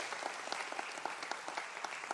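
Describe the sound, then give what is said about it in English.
A church audience applauds an anniversary recognition at Rocky River Church. The clapping is steady and moderate, with sharper individual claps popping out at fairly even intervals. “I'm going to give you a chance in just a minute to clap even better than that”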